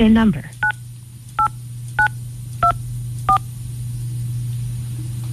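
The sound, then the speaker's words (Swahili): A telephone number dialed on a keypad, producing five short, evenly spaced DTMF beeps, each a crisp two-tone chirp. The beeps follow a brief burst of sound at the start, over a steady low hum. “Haya, kwa sasa ningependa kumpigia huyu mwanadada, anaitwa nani, Ghost Rosie ama Rose Rosie. Kwa hivyo acha tumtafute.”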